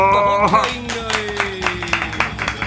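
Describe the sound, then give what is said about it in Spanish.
A few people clapping in a loose, regular rhythm, with sustained tones underneath. “Ya, aplausos.”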